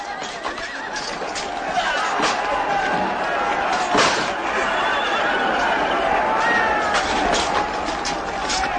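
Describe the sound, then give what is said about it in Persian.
A horse neighs in a dramatized scene: shrill whinnies rise above a loud, dense, continuous mix of background sound that lasts the whole clip. “به اسب خود می رسد. بر اسب خود سوار می شود و به تاخت می رود.”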